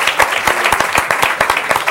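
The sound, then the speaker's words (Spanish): Audience applause breaks out to celebrate good news: many dense, overlapping claps form a loud, steady burst of clapping with no voices over it. “Eso es una noticia de aplaudir. Una muy buena noticia. Un aplauso por esta noticia.”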